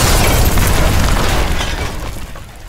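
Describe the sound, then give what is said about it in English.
A gas explosion rips through a church, a loud, dense roar of blast and shattering window glass that stays strong, then gradually fades near the end. “the sacred hall had exploded. Gas had built up inside for hours, creeping its way into every corner. When the automatic pilot light tripped on, the church ignited in a fiery blast. Windows shattered, walls caved in.”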